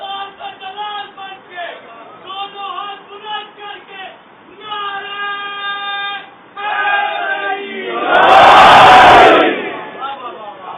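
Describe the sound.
A large crowd at a gathering shouts a slogan in unison in one loud, dense burst lasting about a second and a half, after a man has been speaking at length; his voice returns afterward.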